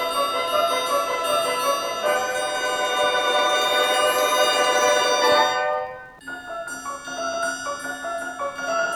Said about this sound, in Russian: Вдруг раздался звон серебряный.